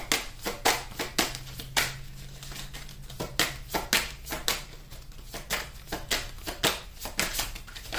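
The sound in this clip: Oracle cards from an African Goddess deck being shuffled and drawn during a tarot reading, a rapid run of crisp papery flicks and snaps in irregular bursts, fairly faint.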